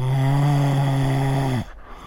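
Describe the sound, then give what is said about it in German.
A person snoring: one long, loud, droning snore with a buzzy low tone, held for well over a second before cutting off abruptly into quiet. “Ja, ich schnarche. Freunde sagen, ich holze ganze Wälder ab.”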